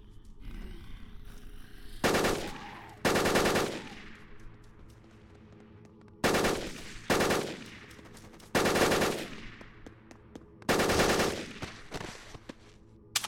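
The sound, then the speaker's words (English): Automatic fire from an R15 rifle in a video game: several loud, sharp bursts, each with a trailing decay, spaced irregularly over a low, steady background hum. “R15 equipped, it has 30 of 30 rounds, and you have R15 equipped. First fire.”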